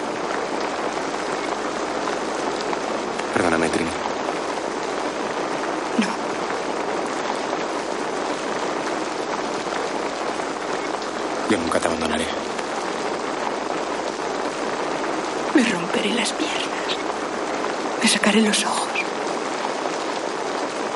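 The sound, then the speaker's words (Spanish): Freezing rain falls and strikes a face: a steady, dense hiss holds throughout, with occasional faint taps rising briefly above the even wash. “Mientras habla, la lluvia helada golpea su rostro.”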